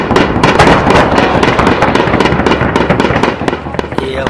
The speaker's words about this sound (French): Dans le ciel de Barouz, le bombardier C-130 de l'armée américaine ouvre le feu.